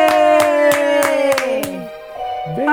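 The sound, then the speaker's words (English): A woman claps her hands six times in an even, brisk rhythm. A sustained voiced tone runs beneath the claps, slides downward and stops, then a short vocal sound rises at the end. “who is that lady clapping a lot?”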